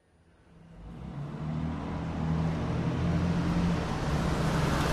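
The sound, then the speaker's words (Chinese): A car being driven, its engine rumble swelling over the first seconds and then holding as a steady, low, loud road drone. “好的，还是我开车。”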